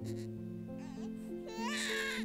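An infant cries loudly and without letup, a strained, wailing cry with steady harmonic tone that stays strong and even grows toward the end.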